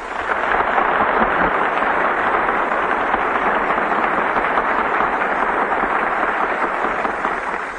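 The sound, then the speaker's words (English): Audience applause greets a performer before a song begins: dense, steady clapping that stays loud and unbroken for the whole stretch, with no voices over it. “we can't miss the applause before we even start, so let's get them while they're in the mood”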